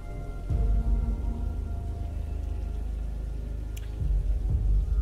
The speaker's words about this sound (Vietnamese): chỉ có tiếng mưa rơi lộp bộp lộp bộp. Cơn mưa cứ to dần